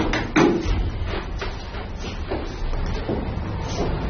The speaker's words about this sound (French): Là, le bruit que vous entendez, c'est simplement les compresseurs de la climatisation.